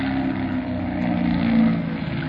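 A biplane engine throttled back for a landing approach gives a loud, steady low drone that holds even throughout, with no clear change in pitch.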